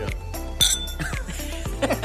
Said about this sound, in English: let's kick this off with a cheers of a non-alcoholic